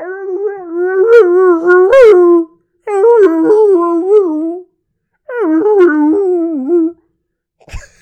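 A husky dog howls in three long, wavering, tonal howls with brief pauses between them, the pitch rising and falling within each, followed by a short faint sound at the end.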